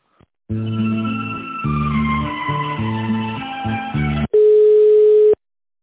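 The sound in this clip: Telephone line sounds while a call is transferred to a company's secretaries: about four seconds of electronic hold-style melody, then one long, steady, single-pitched tone. No one speaks.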